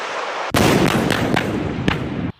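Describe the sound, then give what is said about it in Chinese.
Howitzer artillery firing at a target during a military exercise: one loud, sudden blast that opens into a sustained, rumbling roar lasting nearly two seconds before cutting off abruptly. “榴炮分队自主解算装定射击诸元，向目标发起火力打击。”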